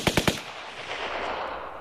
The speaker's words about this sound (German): 22 Schüsse werden auf die jungen Männer abgefeuert.